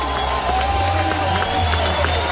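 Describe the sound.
A baseball crowd cheers during a pitching change at a win-or-go-home game. The murmur and cheering form a steady wash beneath continuous commentary.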